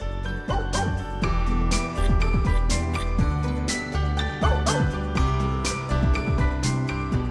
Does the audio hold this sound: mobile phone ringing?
no